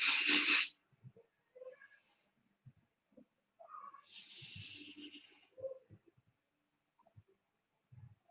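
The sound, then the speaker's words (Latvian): Vaping from a 0.2 ohm coil fired at 60 watts produces airy hissing draws. A loud, brief hiss opens, a softer and longer one comes midway, and faint breaths and soft low sounds fall between them. “Nu, tad taisam vaļā. Un 0,2 ohmis, nu 60 vatiem var mēģināt spidzināt viņu.”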